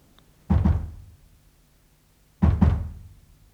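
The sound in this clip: Dull, low knocking comes in two separate clusters of quick raps. Each cluster decays briefly, with near silence between them.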